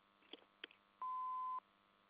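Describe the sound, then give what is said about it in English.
An answering machine's message tone: a single steady beep of about half a second, preceded by a couple of faint clicks, over a low hum. “if you leave your name, phone number, and a short message at the tone, we'll return your call as soon as we can”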